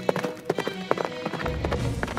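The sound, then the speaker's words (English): Horse hooves clip-clop in a quick, uneven rhythm as a prince rides toward a forest, many light strikes over a soft steady background. “He got on his horse and rode to the forest.”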